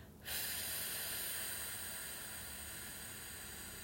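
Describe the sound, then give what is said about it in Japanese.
A slow, long exhale during a relaxation breathing exercise: a steady, breathy hiss starts after a brief pause and holds for several seconds, easing off gradually with no other sounds. “じゃあ吐きましょう。ゆっくり吐きます。”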